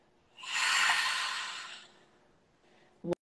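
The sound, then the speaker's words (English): A big, deep belly breath through the nose during a relaxation exercise: one long, loud airy rush that swells and then fades over about two seconds, ending with a brief sharp click. “Another big, deep belly breath in through the nose. And get completely empty.”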